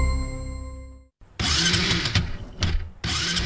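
A motorcycle engine, an old bike, is started. After a short silence, a loud, rough, uneven roar kicks in and keeps sputtering and surging to the end.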